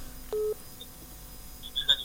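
A single short telephone line tone sounds as an incoming caller is connected: one steady, mid-pitched beep lasting about a fifth of a second, then near quiet before a few faint, brief high chirps near the end, with no voices.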